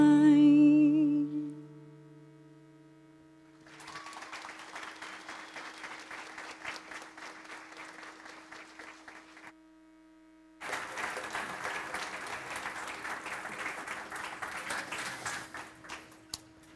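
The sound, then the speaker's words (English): Audience applause after a song: the final held musical note fades into steady, moderately loud clapping, which breaks off briefly and then resumes in a second fuller burst, with a faint sustained tone lingering underneath. “You know they were clapping for Emily, don't you?”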